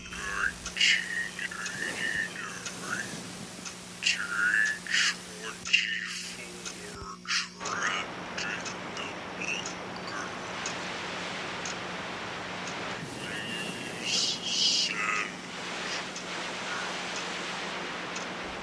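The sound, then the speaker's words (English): Electronic interference disrupting old electronics: a continuous crackling static hiss with scattered ticks and bursts, cut by brief dropouts near the middle, then a steady noisy wash with occasional louder flare-ups. “Something is definitely screwing up the electronics here.”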